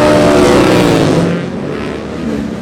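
Racing motorcycles roar off the line at the start of a lightweight road race, a loud broad engine blare that eases somewhat after about a second and a half and then holds steady.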